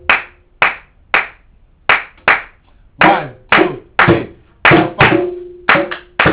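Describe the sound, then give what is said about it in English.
Hands clapping in a demonstration, a long series of sharp, loud claps in an uneven rhythm, some ringing briefly, with no voices over them. “We're going to use our hands. We're using our hands. Clap. One, two, three.”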